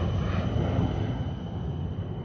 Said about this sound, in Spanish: En el cielo el avión fantasma sobrevuela un banco de nubes.